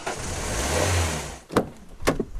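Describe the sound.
Car driving, with a steady, fairly loud engine rumble and road noise that fades slightly, followed by a few sharp knocks or thumps near the end.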